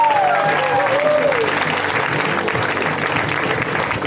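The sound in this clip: Audience applause for a comedian at a stand-up show, a steady wash of clapping throughout with a voice briefly heard over it at the start.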